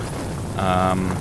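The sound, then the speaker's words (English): Light rain falls outside the studio, heard as a steady, even hiss throughout. A brief tonal hum rises over it midway. “we've just got a little bit of light rain in the background here.”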